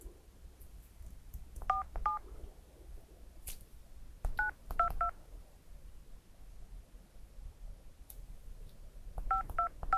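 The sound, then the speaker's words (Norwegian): Telephone keypad tones sound as a number is dialed to place a call: short, bright beeps come in three separate clusters broken by pauses, over a faint low background hum. “Da skal vi ringe en eh, kar borti Sandnes.”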